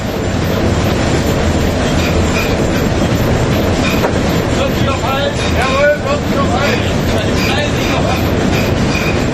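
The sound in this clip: A steam locomotive runs on rails with a loud, continuous rumble and the rhythmic clatter of its wheels. Brief metallic wheel squeals rise above the noise partway through.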